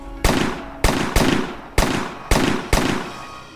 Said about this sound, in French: La fusillade a duré 16 secondes. Les policiers ont tiré 150 cartouches. 10 coups de feu par seconde.